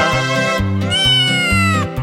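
A cat meows in a couple of long, drawn-out, tonal cries over a steady low rhythmic musical beat, loud and with no talk.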